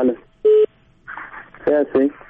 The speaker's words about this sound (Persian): تماس از اینا هم قطع شد